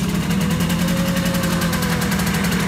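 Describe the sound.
An engine is being given a bit of throttle, producing a loud, steady drone with a strong low rumble that holds level for the whole stretch.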